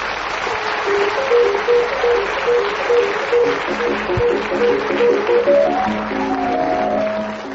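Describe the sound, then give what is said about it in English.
Chopin's Minute Waltz plays as a theme tune, its quick, steady melodic runs climbing higher near the end over continuous applause, fading slightly in the last moments. “as the minute waltz fades away”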